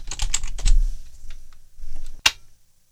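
Someone types an email address and a password on a computer keyboard: a quick run of clacking keystrokes, a few scattered taps, another brief run, then one sharp final key strike before silence.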